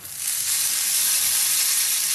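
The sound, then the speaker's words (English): Tablespoon of ghee heating in a pan: a steady, bright sizzling hiss swells within the first moment, then holds even and continuous. “add a little tempering of spices and ghee. I'm heating a tablespoon of ghee,”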